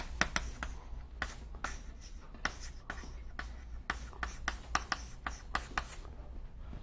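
Handwriting during a physics lecture: many quick, faint scratching strokes in an irregular rhythm, with no talk.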